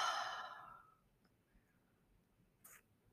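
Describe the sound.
A deep, slow exhalation during a guided meditation: a loud, airy breath that gradually fades over about a second into near silence, with a faint click later.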